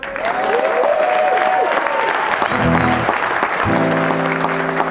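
Audience applause welcoming a performer before a country and western song, dense and steady clapping throughout, with sustained tones joining it in the second half.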